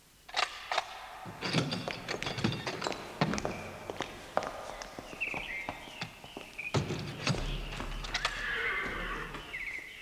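A horse-drawn carriage arrives with clopping hooves and footsteps, and the horse lets out a couple of high, shaky whinnies. The sound is faint throughout.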